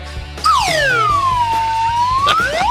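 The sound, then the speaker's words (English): A slide whistle swoops through a long, loud downward glide, then slides quickly back up in pitch near the end, with a low steady tone underneath. “Probably my favorite noisemaker, by the way, the entrance sounds of the Almanac, the slide whistle.”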